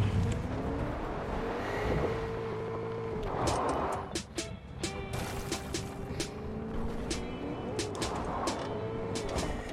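Engine drone of a vehicle driven in the video game Fortnite, a continuous mid-loud hum with wavering tonal lines under a rough, noisy wash, with occasional sharper clicks and bursts on top.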